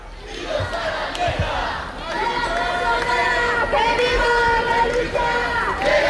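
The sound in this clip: A protest crowd chants in front of the Spanish parliament. Many voices rise in loud, sustained unison chanting over a steady roar of shouting, and the chant grows fuller and more tonal partway through.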